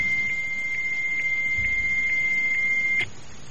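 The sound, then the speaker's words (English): Fax machine tone on a phone line: a steady, high-pitched electronic whistle with faint regular ticks about twice a second, holding level before cutting off abruptly near the end and leaving quiet line hiss. “That sounds like a fax. Well, we aren't going to get a fax on that number.”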